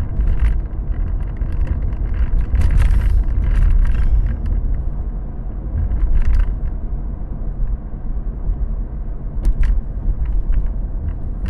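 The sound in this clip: A car being driven gives a continuous, loud, low rumble of engine and road noise with gusts of wind buffeting throughout and no talking.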